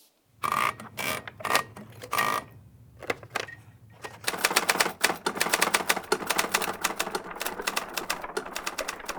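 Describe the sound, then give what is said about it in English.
Typewriter keys clack as lines of text are typed out, first in separate bursts of keystrokes with short pauses, then in a dense, steady run of rapid strikes. “I mean, what if I typed it out line by line?”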